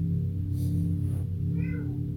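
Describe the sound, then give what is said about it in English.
A cat gives a short meow near the end over a steady, loud low humming drone that fills the whole stretch. “And as Kitty wakes us all up, coming back into the reality, just sit there and play with the energy in your body.”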